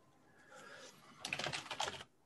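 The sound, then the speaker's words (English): Typing on a computer keyboard: a quick, dense burst of many sharp plastic key clicks, fairly loud and uneven in rhythm, following a short, faint lead-in, with no voices over it. “You can go ahead and type.”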